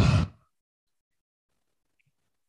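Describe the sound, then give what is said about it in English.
A forceful exhale through the mouth during a yoga flow: one brief, loud, breathy whoosh, followed by silence. “Breath in through your nose. Breath out through your mouth with some aplomb. Put some force behind it. Get it out.”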